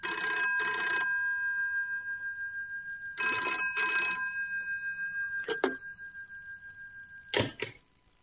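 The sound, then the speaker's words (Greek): A telephone rings in two pairs of bright, trilling bursts separated by a pause, followed by a couple of short sharp sounds near the end. “Σήκωσε το.”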